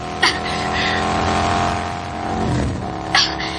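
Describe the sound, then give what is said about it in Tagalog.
A motorcycle engine accelerating as a radio drama sound effect, a loud, steady revving drone that holds throughout, with brief louder surges near the start and the end. “Pakusgan ako ang pagpiragan ining motor.”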